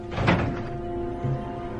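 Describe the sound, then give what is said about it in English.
A rifle being loaded in a TV drama scene set in a bunker: two dull mechanical clunks, the first louder, over a steady low electrical hum. “She grabs a rifle and she loads it.”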